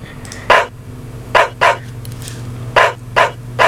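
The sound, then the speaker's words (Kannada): A dog barks in short, sharp bursts, six in all, some arriving in quick pairs with gaps between, over a low steady hum. “ಬೊಗಳ್ತಾ ಇರುವಂತಹ ನಾಯಿ ಕುರಿತಾಗಿ ಅಲ್ಲ, ನಮ್ಮ ಮನುಷ್ಯನ ಅತ್ಯಂತ ಆಪ್ತ ಮಿತ್ರ”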